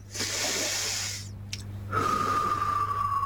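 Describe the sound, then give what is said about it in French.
A slow, airy breath drawn in and let out, a long soft hiss that fades, then a brief pause before a quieter stretch under a thin steady tone. “Alors, pour vous, chez vous, vous allez peut-être déjà prendre un inspire et un expire.”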